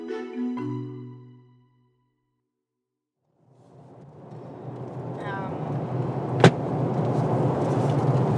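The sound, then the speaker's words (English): A car drives out to Minyiri in southeast Arnhem Land. A voice speaks briefly and a short silence follows. Then a rumbling road drone builds and holds steady, with one sharp click partway through. “We are driving out to Minyiri, which is kind of like southeast Arnhem Land.”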